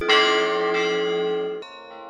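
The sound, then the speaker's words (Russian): Church bells ring for an Easter celebration, loud and bright, with dense sustained overtones; a strike rings out and hums on, and a fresh strike enters near the end. “Из храма духовного в мир музыки пасхального торжества встречал колокольный звон.”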